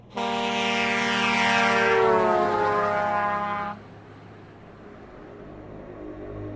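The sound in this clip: A loud, rough, blaring horn from a huge rumbling vehicle speeding past in the oncoming lane. Its pitch slides downward as it passes, then it cuts off and leaves a low, steady rumble.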